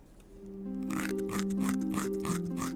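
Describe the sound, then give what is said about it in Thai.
A rabbit munching cabbage in a garden, a fairy-tale sound effect: a series of crisp, crunchy bites in a quick, uneven rhythm over soft sustained melodic notes. “แล้วก็กัดกินกระหล่ำปลีในสวนจนหมด”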